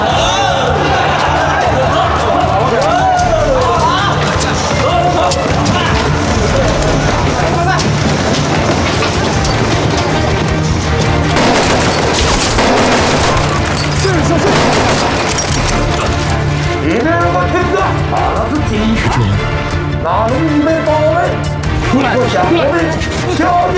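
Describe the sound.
Gunfire during a shootout in a police raid on a counterfeiting gang, with cracking bursts of shots clustering around the middle over a dense, chaotic din and loud shouting voices throughout.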